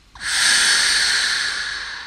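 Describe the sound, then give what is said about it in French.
A sustained human breath, part of a sound performance piece built around breathing, rushes in as a steady airy hiss that swells quickly, holds for about two seconds and eases off slightly at the end. “Écoutons un court avant-goût de cette expérience autour de la respiration.”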